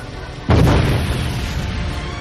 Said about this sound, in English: The ship exploded in a sharp white flare.